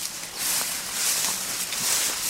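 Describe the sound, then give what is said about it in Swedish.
Hurried half-running steps through a soggy marsh thick with tall, rustling reeds produce a continuous dense swishing and brushing, with a few faint soft impacts scattered irregularly through it. “Vi halvspringer så gott det går genom det dyngsura kärret i en sänka med tätvuxen 3 meter hög frasande vass.”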